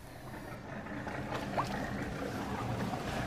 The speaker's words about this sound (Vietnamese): Lái chiếc xà lan tải trọng 500 tấn di chuyển qua kênh Chợ Gạo, xã Chợ Gạo, tỉnh Đồng Tháp.